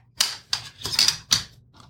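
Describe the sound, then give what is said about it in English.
A foil cutter slices the foil on a wine bottle with four quick, sharp, scratchy rasps in an uneven rhythm, then a fainter fifth one. “So, this is my foil cutter. I'm going to cut the foil.”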